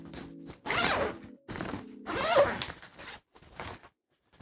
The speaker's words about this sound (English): You can see two zippers here. If I pull it down,